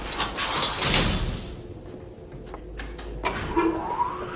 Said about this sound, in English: She pulls back a sliding metal gate to an elevator, and they step in.